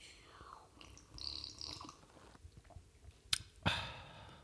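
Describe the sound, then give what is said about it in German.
Someone taking a sip of a drink: soft breathy mouth noises, then two sharp slurping sounds near the end. “Warte, lass uns genießen. Ja, Moment, stimmt. einmal, einmal nur so ein paar, paar, Sekunden. Ich trinke mal einen Schluck.”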